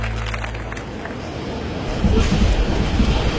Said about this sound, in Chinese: 火车站，